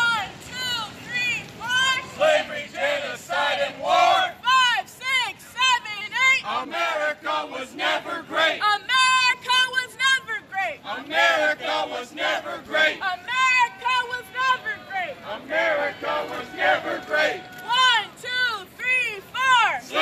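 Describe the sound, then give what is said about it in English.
Protesters chant while marching into a park across the street from the White House in Washington, D.C., on July 4th. A crowd of loud, shouted voices rises and falls in repeated rhythmic bursts throughout. “Right, that was the sound of the Revolution Club as they marched into Lafayette Park, right across the street from the White House in Washington, D.C. on July 4th.”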